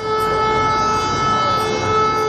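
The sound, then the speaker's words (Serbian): Civil defence all-clear sirens sound across Belgrade on a day of mourning. They hold one steady, sustained tone at an even, fairly loud level with no clear rise or fall. “Ali ne samo zvona. I sirene za prestanak opasnosti.”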